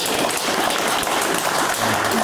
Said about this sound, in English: A polite clap.